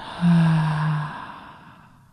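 A slow, audible breath out during a guided breathing exercise, heard as one long sighing exhale with a faint voiced tone that eases off and fades to near silence.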